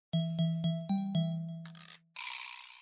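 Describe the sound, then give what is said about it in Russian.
Bronze bells on a fence ringing: five quick, bright metallic strikes with ringing tails, followed by bursts of harsh scraping noise. “услышал звон бронзовых колокольчиков на ограде”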